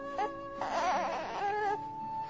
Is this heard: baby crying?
yes